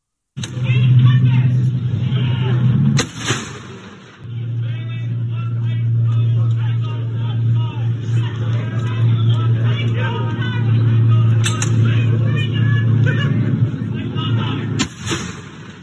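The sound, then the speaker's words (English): Artillery guns fire in sequence during a night firing exercise. A few sharp reports cut through a continuous deep, engine-like rumble, with voices murmuring throughout. “the guns firing together in sequence. It was really really quite spectacular. So again, I might even put that up now. Let's cut now to the audio of a night firing exercise that I saw that really sent the hairs up on the back of your neck.”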